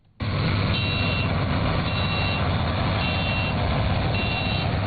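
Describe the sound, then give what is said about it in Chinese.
Three driverless combine harvesters work together in a farm field in Heilongjiang, a loud steady engine roar with four evenly spaced high electronic beeps over it. “黑龙江双鸭山北大荒集团红卫农场智慧农业示范区，3台无人驾驶收割机正在田间协同自主作业”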